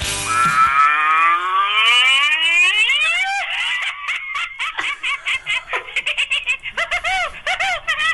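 A novelty crazy-cow phone ringtone: a long, wavering electronic tone that climbs steadily, followed by many quick, choppy bursts that sound like giggling or chattering. It is loud and plays alone, with no talking.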